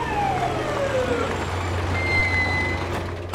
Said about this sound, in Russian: Подъехала машина полиции.